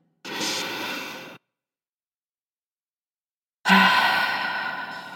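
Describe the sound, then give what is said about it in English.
One deep breath into the belly: a soft, breathy inhale, a pause of silence, then one long, airy exhale that slowly fades. It is heard alone, with no talk. “So when you struggle, please take a deep breath into your belly. Let's do it together now.”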